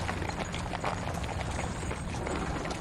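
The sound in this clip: Horse hooves clip-clop as a horse-drawn carriage returns to a manor. Steady, rhythmic hoofbeats sit within a dense, continuous wash of noise.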